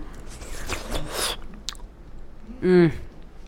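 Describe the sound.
Someone chews a mouthful of freshly made mango curry chutney with raisins, giving soft wet bites and crunches, then a short voiced hum of approval.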